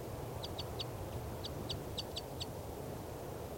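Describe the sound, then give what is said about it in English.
Begging calls from a female bird at its nest: a series of short, high, thin chirps in irregular pairs and singles over a steady low background rush. “I've got a net set up here underneath the nest. And this is the begging calls of the female.”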